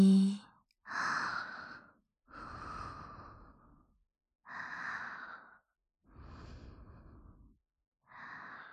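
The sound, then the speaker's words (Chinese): Slow, deep breathing during a relaxation exercise: six long, sigh-like breaths in a steady, unhurried rhythm, soft and breathy, with short pauses between them and no speech. “放松，呼吸，呼吸。”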